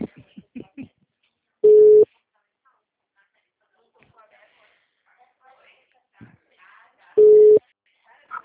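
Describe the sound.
Two steady, low-pitched telephone tones after a dropped call, each about a third of a second and spaced several seconds apart, loud against faint talk in between.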